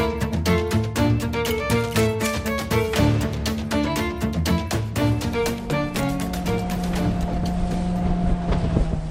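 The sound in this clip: Engine of a small motor launch at sea: a steady, rapid chugging putter over a low droning hum, running continuously with some wind noise and no voices.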